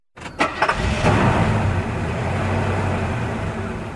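A car engine starts: a short burst of starter cranking catches within about a second, then the engine settles into a steady, rumbling idle that continues to the end.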